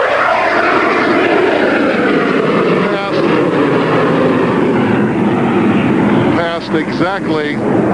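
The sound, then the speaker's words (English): Aircraft roaring past at an air show: two planes cross beside the reviewing stand after a loop, one with landing gear down and one clean. A sustained loud engine drone is heard, with brief voices near the end. “I want to tell you, if you were quick, you could have grabbed the landing gear on the dirty plane as it came by.”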